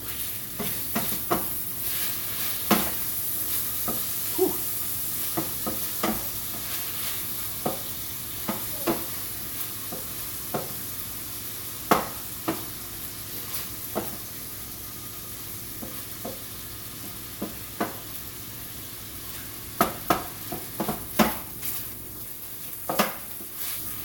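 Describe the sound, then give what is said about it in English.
Sausage with fennel sizzles in a frying pan while being stirred. A steady, bright hiss runs throughout, broken by many short scraping clicks from the stirring. “I don't know if the fennel is a great idea, but better stir my sausage.”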